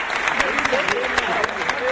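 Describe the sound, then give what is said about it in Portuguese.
Crowd applause for a young boy who had been singing samba songs at a samba gathering. Dense, steady clapping runs throughout, with voices and cheering mixed in. “Eu queria pedir uma salva de palmas pra esse menininho aqui”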